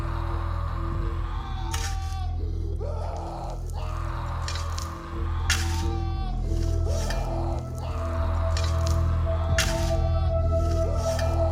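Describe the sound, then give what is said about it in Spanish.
Earth is shoveled into a hole to bury a body, dull scraping and dumping sounds repeating irregularly over a steady low hum. “Sigue llenando el hueco con la tierra hasta cubrir todo el cuerpo, dejando solamente la cabeza del alacrán a la vista.”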